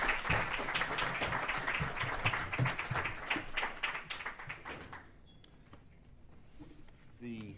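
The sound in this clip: Loud, brisk applause greets a speaker being welcomed, then thins and fades out, leaving near-quiet with a voice starting just at the end.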